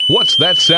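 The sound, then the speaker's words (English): A dock safety alarm warns of hazardous electricity on or around a boat dock with a steady, piercing high-pitched electronic tone that sounds continuously while a voice speaks over it. “That's the sound of the Dock Lifeguard warning you it's not safe to be in the water around your boat dock.”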